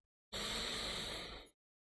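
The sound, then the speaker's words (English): One deep inhale through the nose during a guided relaxation exercise, a smooth, airy rush of breath lasting just over a second, quiet and alone, tapering slightly at its end. “Take another nice deep inhale through your nose”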